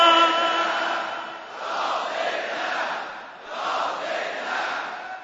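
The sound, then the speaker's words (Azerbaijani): A gathered crowd at a mourning recitation calls out Ya Zeynab aloud three times, each a long swelling group shout, the three cries separated by short dips. “Əgər var hacətün, üç yol ucadan səslə ya Zeynəb.”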